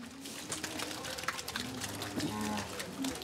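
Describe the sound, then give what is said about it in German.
Cows on a farm heading out to pasture after the early milking, with low lowing calls and a few moos over a constant rustling background. “Ich lerne, Kühe sind Frühaufsteher. Um 3 Uhr wurden alle schon gemolken. Und jetzt dürfen sie endlich raus auf die Weide.”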